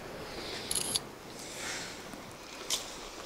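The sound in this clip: A phone camera taking photos: two short, bright shutter clicks about two seconds apart, over a faint steady hiss.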